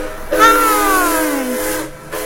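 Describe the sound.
A train whistle sounds one long, loud, harmonic blast whose pitch slides gradually downward before it cuts off, leaving a quieter hiss behind.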